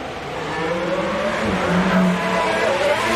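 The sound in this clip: A racing car runs at full speed on track just after a safety car period, its engine a loud, continuous roar with a steady tone and no pauses.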